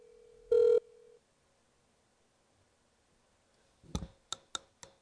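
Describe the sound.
A telephone call is placed. One loud steady electronic tone sounds, then a quiet pause, and then a few sharp clicks on the line.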